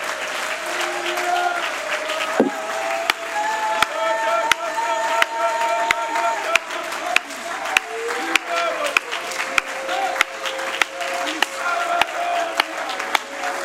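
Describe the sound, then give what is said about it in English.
A church audience applauds during worship with sustained, dense clapping full of sharp individual claps, and faint voices mix in underneath. “I wonder if you could put your hands together and love on Jesus.”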